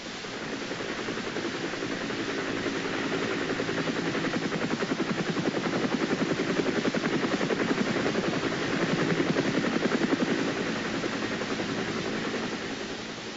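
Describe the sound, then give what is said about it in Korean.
A Chinook helicopter in flight carries troops toward a battle zone: a loud, steady rotor and engine roar fills the whole stretch, with a fast rhythmic blade chop running through it. No voices are heard. “Joker와 사진기자병은 Lefterman이 치누크 헬리콥터를 타고 푸바이로 이동 중입니다.”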